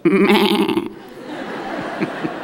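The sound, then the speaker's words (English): A human voice imitates a sheep bleating, giving one loud, nasal, tremulous baa with a fast quivering pulse that lasts just under a second before dropping to quieter breathy sounds. “But when a wolf comes up to a sheep, here is the only defense mechanism that a sheep has. It goes,”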